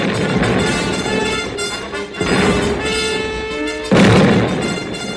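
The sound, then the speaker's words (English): Confederate artillery cannon fire. Two heavy booms burst out partway through, over a steady tonal background that runs the whole length. “The Confederate artillery thundered the beginning of the end.”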